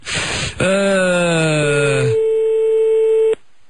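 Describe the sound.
A telephone call rings out: a harmonic electronic tone with slightly sliding pitch settles into one steady sustained tone that holds for a few seconds, then cuts off abruptly. A short noisy burst comes before it.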